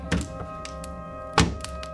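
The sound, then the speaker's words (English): Two dull thuds sound at the door as a father arrives home, spaced just over a second apart over a faint, steady tonal background. “Ah, there's your father at the door.”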